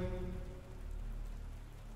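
Heavy rain pours in a dense, continuous hiss. The level stays steady throughout, with no gaps and no voices.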